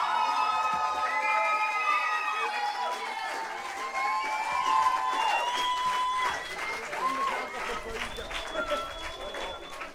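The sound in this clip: Audience at a live event applauding and cheering for a band: dense, continuous clapping mixed with shouts and whistle-like cries that stays loud for the whole stretch.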